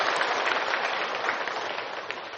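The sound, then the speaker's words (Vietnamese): Audience applause welcomes a Buddhist teacher to a Dharma talk gathering in Ho Chi Minh City. The clapping is dense and steady and eases off slightly toward the end. “Xin toàn thể đầu tràng cho một tràng pháo tay cùng đón sự hiện diện của thầy.”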